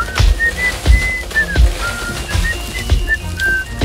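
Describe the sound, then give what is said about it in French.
A person sitting on tree branches whistles a tune of short, clear high notes, some sliding, over a steady rustling noise with recurring soft low thumps. “Comment peut-il siffler ainsi?”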